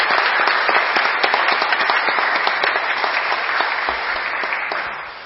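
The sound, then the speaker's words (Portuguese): Applause from an audience honouring someone at a ceremony in a municipal council chamber: steady, dense clapping that fills the whole clip and eases slightly toward the end, with no talk over it. “gostaria de uma salva de palmas para nosso homenageado”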